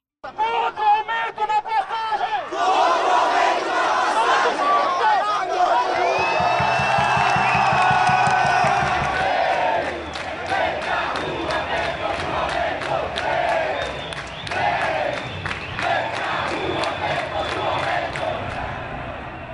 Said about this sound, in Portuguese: Você ouve aí o áudio captado pela TVT numa das manifestações que ocorreram em São Paulo em junho de 2013.